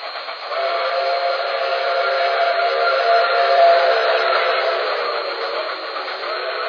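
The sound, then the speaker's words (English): An express train passing on the railway, a broad, steady rushing roar that swells slightly toward the middle and holds to the end, with no voices. “We're going to give that train a look as it passes.”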